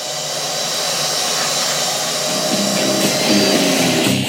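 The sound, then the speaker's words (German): A vacuum cleaner sucks up crumbs of an organic rice cake from the floor, a loud, steady, rushing drone that holds constant throughout with no talk. “saugt sehr gründlich mit dem Staubsauger die Krümel einer Bio-Reiswaffel direkt vor unseren Füßen auf”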